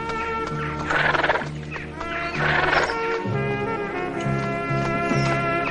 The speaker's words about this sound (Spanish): Estos frenan sus caballos y suben por unas montañas.